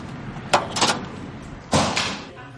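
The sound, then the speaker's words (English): A door lock clicks and the door is pulled open at an office entrance in California: a sharp click and brief rattle, then a second, louder knocking burst about a second later, with no talk. “when you hear the door click, go ahead and pull.”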